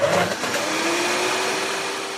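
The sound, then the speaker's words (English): Steady, loud whirring roar of a blender making a banana almond milk smoothie, running continuously from start to finish with no voices. “My teenage daughter's banana almond milk smoothie.”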